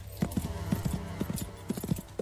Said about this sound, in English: You're going for a bouncy, active canter, so the horse has an upward stride.